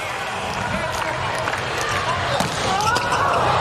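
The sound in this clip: In a match, a ball is struck on a serve: sharp thumps of the ball over a steady crowd noise. Commentary voices talk over the whole clip.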